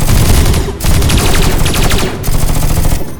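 Gunfire from assault rifles in a firefight in a spaceship common area. Loud, rapid automatic bursts crackle almost without pause, broken by a few very brief gaps.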